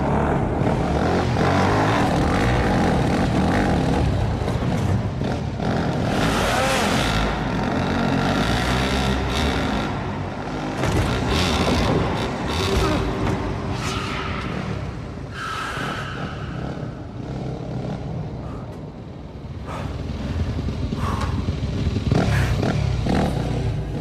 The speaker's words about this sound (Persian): مشکل برادرم نیست، موتورت خیلی کنده.